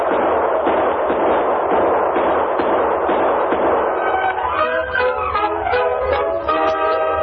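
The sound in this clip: Gunfire in a Western radio drama, a dense volley of many rapid, muffled shots and bangs crackling together without pause, loud and continuous.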